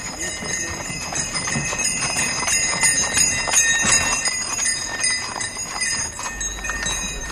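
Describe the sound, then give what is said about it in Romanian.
Hooves of a horse pulling a sleigh on a winter ride clip-clop in a steady, continuous trotting rhythm, fairly loud and sustained through the whole stretch, with a dense layer of bright, high-pitched sound over the beat. “Ați avut o idee grozavă să faceți o plimbare cu Sania.”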